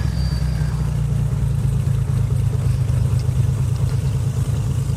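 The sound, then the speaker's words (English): Airplane engine droning after being switched on before taxiing: a dense, steady low rumble at even loudness throughout, with no talk over it. “The thing is just gonna shut down now when I turn the engines on. Or the engine.”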